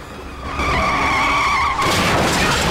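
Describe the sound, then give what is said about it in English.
Ambulance tires squeal as the vehicle speeds around a corner: a loud, sustained high screech over a roaring engine that turns into harsher, noisier scraping near the end. “With the torch now held fast by the seatbelt around his neck, Jake jumps out of the ambulance as it speeds around a corner.”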